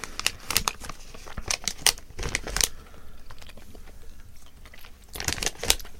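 Nibbling and chewing a light yellow, lemon-flavoured treat gives many crisp, irregular crunches and crinkly bites, loudest in short clusters near the start and end. No talking.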